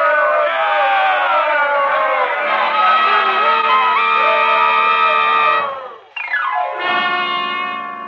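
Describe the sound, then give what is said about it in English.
Angry crowd shouting and muttering outside a jail in Weatherby, Arizona: many voices in a sustained, rising and falling roar, breaking off briefly near the end before swelling again. “It's like an angry tide, rising and falling. The shouting and muttering of the crowd milling around outside the jail in Weatherby, Arizona.”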